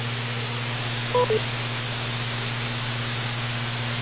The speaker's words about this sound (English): Go ahead and wait for the beep.